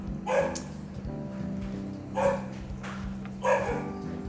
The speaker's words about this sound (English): That's my dog. I'm sorry. I can't control the dog sometimes.